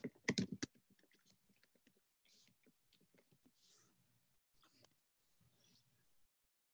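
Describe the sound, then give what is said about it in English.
Keys clatter as someone types a comment on a computer keyboard: a quick loud burst of keystrokes, then scattered softer clicks with faint murmuring. “let me type a comment and see if I can see it”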